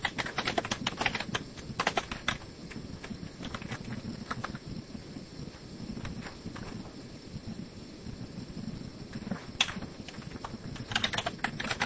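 Typing on a computer keyboard: a steady stream of many light, crisp key clicks in an irregular rhythm, with brief denser bursts over a low, soft background.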